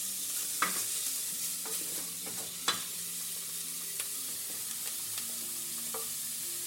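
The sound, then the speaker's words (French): Meat searing in a hot pan and releasing its fat gives off a steady, bright sizzling hiss. A few sharp pops and crackles stand out from it, with no voices. “je vais la faire saisir de toutes parts. Donc elle va relâcher également un petit peu de gras.”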